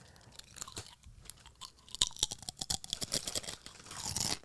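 Crunchy snacks being chewed in a long run of sharp, crisp bites and crunches, many uneven bursts with no voices, building louder toward the end.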